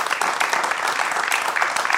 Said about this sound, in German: Und ich bitte um einen Applaus für unseren Katastrophenforscher heute hier.